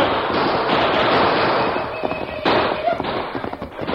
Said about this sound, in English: Use your guns